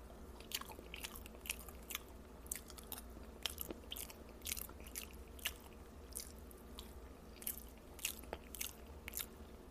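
Someone chewing and biting into yams, with many crisp, moist crunches at irregular intervals over a faint, steady background.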